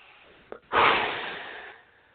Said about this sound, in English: One more deep breath.